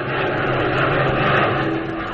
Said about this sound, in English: we find him at the controls of a sleek, powerful Black Widow fighter, roaring high above the German lines on course 098.